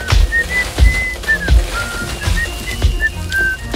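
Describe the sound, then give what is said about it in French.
A person whistles a lively run of many short, high notes while sitting on branches being carried, the pitch shifting slightly from note to note, with a few low thuds underneath. “Comment peut-il siffler ainsi?”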